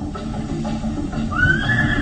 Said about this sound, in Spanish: Ahí están los caballos que nos fueron robados cuando estuvimos en la aldea.